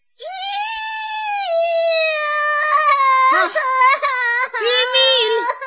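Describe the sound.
Children crying in a kitchen, one a boy with a soup tureen stuck on his head: a loud, high, drawn-out wail that wavers in pitch, then breaks into choppy, gulping sobs in the second half.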